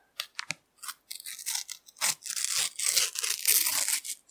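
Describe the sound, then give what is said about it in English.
Tearing open a sticker packet: crinkly paper and foil rips, starting with a few short, sharp bursts, then running into longer, denser tearing and rustling near the end. “That was not a bad little tear. You are struggling getting them out of the packet, though. I do think these sticker packets are a little bit more stuck in.”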